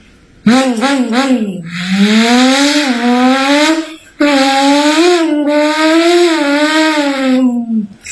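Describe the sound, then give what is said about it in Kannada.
A voice imitates a motorbike speeding past at full speed. It makes a loud, buzzing engine drone that wobbles at first and then climbs slowly in pitch. The drone breaks off briefly midway before a second long run. “ಒಂದು bike full feed ಆಗಿ ಹೋಗುತ್ತಿತ್ತು.”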